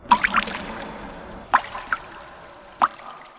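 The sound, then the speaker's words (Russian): Blood drips through a metal floor grating in a few distinct drops, three sharper splats, each followed by a softer one. The drips are irregularly spaced with quiet stretches between them, and no voices are heard. “Вокруг него ширящимся кругом растекалась кровь. Она капала сквозь металлические перекладины пола.”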